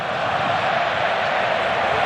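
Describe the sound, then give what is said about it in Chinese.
Steady, dense roar of Spanish football fans in a stadium cheering their team's passing, holding at an even loudness for the whole stretch with no separate bursts or spoken voices standing out. “现场的西班牙的球迷们在随着球队的每一次传球而一起喝彩。”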